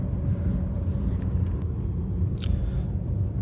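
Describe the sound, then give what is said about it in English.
Steady low rumble of a car being driven, heard from inside, an even droning hum with no talk. “I'm driving to the office on a Thursday at 11:02 a.m. post meridium.”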